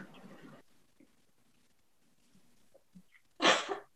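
A single sharp sneeze from a person with a cold bursts out loud near the end, following a stretch of near quiet with faint low sounds at the start.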